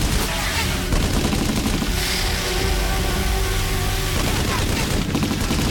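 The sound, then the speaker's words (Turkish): Gunfire rattles loudly and without a break, a dense, continuous stream of shots that carries through the whole stretch. “Ateş ediyorlar.”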